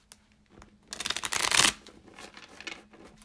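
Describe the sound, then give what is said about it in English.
Tarot cards are shuffled and drawn: a dense riffling burst that swells to a loud peak midway, then lighter papery rustles and slides as the cards are handled and pulled. “I will pull the first tarot card.”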